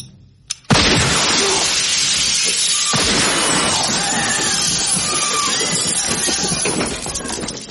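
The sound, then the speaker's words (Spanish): A gunshot and a bullet shattering an office window in a thriller scene: a sharp crack, then a long, dense crash of breaking glass and scattering fragments that slowly fades. “Entonces aprieta lentamente el gatillo.”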